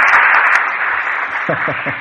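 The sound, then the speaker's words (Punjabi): Audience applause at a Punjabi folk poetry and boliyan gathering: a dense, steady patter of clapping for about two seconds, with a few short vocal bursts near the end. “ਇਸੇ ਗੱਲ ਤੇ ਬਈ ਤਾੜੀਆਂ ਹੋ ਜਾਣ ਬਈ, ਗਵਾਹੀ ਤੁਸੀਂ ਕਰ ਸਕਦੇ ਹੋ।”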